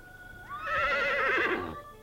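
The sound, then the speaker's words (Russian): A horse neighs in one long, loud whinny with a wavering, quavering pitch, rising at the start and trailing off after about a second, with no other sound around it. “Раздается ржание лошади.”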